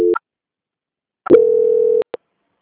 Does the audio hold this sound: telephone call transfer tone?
yes

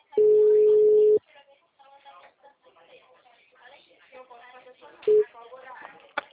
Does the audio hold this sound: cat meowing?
no

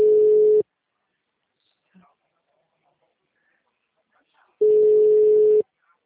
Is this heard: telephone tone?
yes

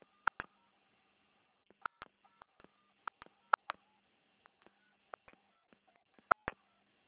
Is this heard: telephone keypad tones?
yes

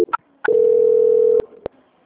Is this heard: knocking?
no

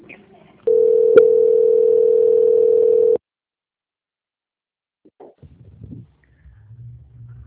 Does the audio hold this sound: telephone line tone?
yes

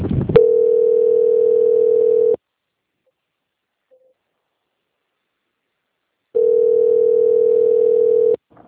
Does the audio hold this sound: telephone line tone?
yes

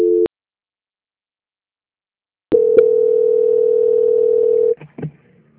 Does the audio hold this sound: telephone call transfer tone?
yes

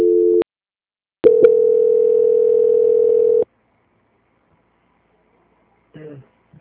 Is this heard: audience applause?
no

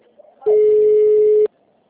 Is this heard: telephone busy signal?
yes

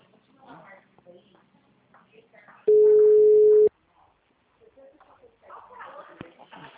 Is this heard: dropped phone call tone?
yes

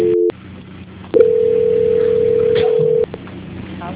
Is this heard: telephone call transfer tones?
yes

